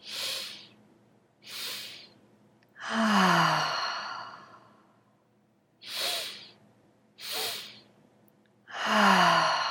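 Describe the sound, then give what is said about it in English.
Slow breath work demonstration: two short breaths followed by a longer, louder sighing breath, a cycle repeated twice at an unhurried pace. “If you are not used to breath work, I suggest that you go slowly, at least in the beginning, something of a pace like this.”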